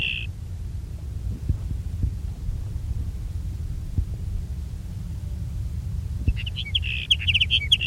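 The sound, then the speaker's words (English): Sage sparrow song: a brief high note at the start, then a quick run of high, tinkling notes near the end, heard over a steady low hum. “sage sparrow number two”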